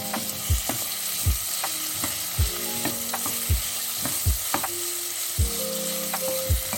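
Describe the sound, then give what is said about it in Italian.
Meat browning in a frying pan: a steady, bright sizzle runs throughout, broken by short scraping stirs that come at a fairly even rhythm. “dobbiamo rosolarla bene fino a quando avrà cambiato colore”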